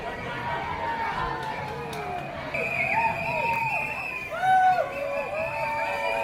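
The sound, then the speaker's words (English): Crowd noise at a pride parade as the marching groups pass: continuous chatter and cheering with scattered shouts and bright tonal calls that swell and fade over a steady murmur. “Here they come. Here's the start of the parade. The parade is here. So these are the trustees all in the parade.”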